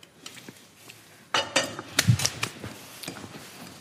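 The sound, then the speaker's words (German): Food being chopped in a kitchen while a pan heats on medium, heard as sharp clinks and knocks of utensils and dishes, sparse and quiet at first, then a denser burst of clatter. “Komm, ich hack die hier nochmal kurz fertig.”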